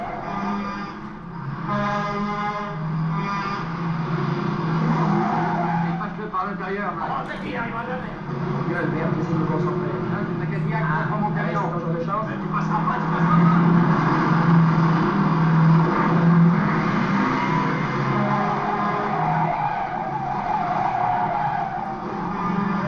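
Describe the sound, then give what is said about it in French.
A film car chase between a Cadillac Coupe de Ville and a Brockway truck: continuous loud engine roar mixed with skidding and squealing tires, a dense, unbroken wash of vehicle noise throughout. “la course poursuite qui va s'engager entre la Cadillac de Miro et le camion”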